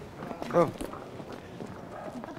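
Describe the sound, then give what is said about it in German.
Hooves of young horses clip-clop as a cart starts off, a few quiet, uneven knocks with a voice speaking over them. “Immer langsam mit den jungen Pferden. Ich bin doch Zeit für Sie. So. Fahr an.”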